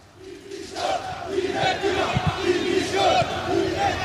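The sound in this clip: RCD Mallorca football fans chanting and cheering outside the stadium while they wait for the players, a loud, sustained crowd chant with rhythmic sung phrases that rise and fall in waves.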